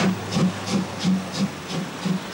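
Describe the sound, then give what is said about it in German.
Steam locomotive 78-468 departs St. Thomas station with steady, evenly spaced exhaust chuffs, about three per second, over a continuous hiss and low rumble. The sound is moderately loud with no voices. “Ausfahrt aus dem Bahnhof St. Thomas. Für Eisenbahnneulinge sei noch gesagt, die 78-468 ist die einzige betriebsfähige Lok ihrer Acht.”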